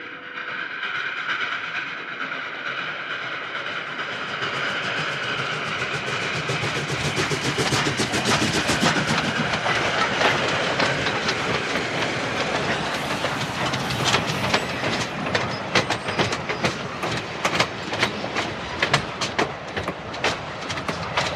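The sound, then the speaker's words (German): Rumbling of the Pennsylvania Special passenger train rolling into a station on a December night. A broad, steady roar carries rhythmic clickety-clack of the wheels, which grows sharper and more frequent toward the end. “Pennsylvania Special rollte gerade ein,”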